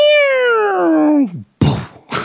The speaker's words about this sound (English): A stray cat must be making noise. Yeah, a stray cat is running away and knocking over garbage cans.